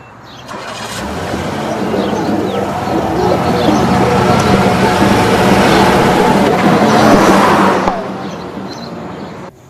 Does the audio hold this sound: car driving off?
yes